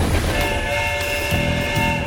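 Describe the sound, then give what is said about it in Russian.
An approaching train sounds a sustained multi-tone horn or whistle over a rumbling rail bed, holding a steady level for about two seconds. “Поезд будет здесь совсем уже скоро.”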